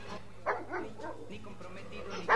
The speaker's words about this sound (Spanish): Los ladridos de los perros.